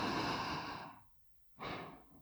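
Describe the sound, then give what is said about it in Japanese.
Deep, slow breathing: one long, airy breath that gradually tapers off, a brief quiet pause, then another full breath starting, soft and unhurried as someone is coaxed to calm down. “よしよし、うん、深呼吸深呼吸、吸って”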